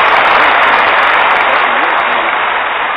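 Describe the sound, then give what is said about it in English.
Applause sound effect: a dense, unbroken wash of clapping and crowd noise with a muffled, dull tone, holding steady for three seconds with a faint voice underneath. “I got sound effects. That was my applause.”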